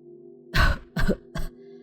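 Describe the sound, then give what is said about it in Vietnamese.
An elderly woman of over ninety coughs three times in rough, breathy bursts, the last one shorter, over a steady low drone. “Bà cụ nhìn cô ho lên một chập rồi mới cất giọng thều thào.”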